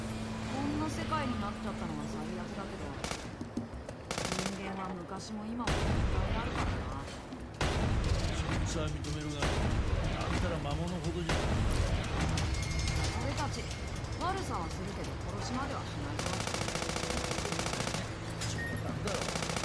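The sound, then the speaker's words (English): Heavy tank shell fire and rapid gunfire in a mech combat video game, dense bursts and booms running almost without pause, with voices talking over the battle. “Imagine using a whole tank shell to take out of one animal. Damn, what are you driving into that for?”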